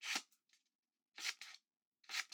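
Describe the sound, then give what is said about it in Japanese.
Scissors snipping paper for origami, crisp dry cuts in three short clusters of quick snips, each separated by near silence, faint overall. “チョキチョキ、いい音だね。折り紙なんていつぶりだろう。”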